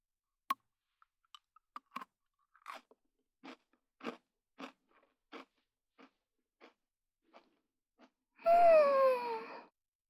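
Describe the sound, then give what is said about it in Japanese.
Pocky chocolate biscuit sticks being bitten and chewed: many crisp, sharp crunches in an irregular rhythm that slows over time, followed by a brief voiced sound with a gliding pitch. “だからたくさんポッキー食べてあやからないと。ってことで、はい、どうぞ。一緒に食べよう。”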